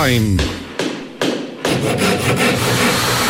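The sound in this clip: Hand tools working wood, with a few heavy knocks and thuds giving way to a run of rhythmic rasping sawing strokes, loud and continuous.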